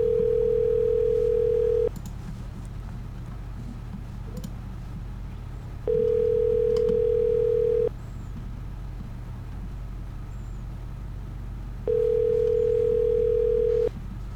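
Ringback tone heard while placing a phone call to order paella: three identical, steady low-pitched rings, each about two seconds long and separated by roughly four seconds of quiet, over a constant low hum.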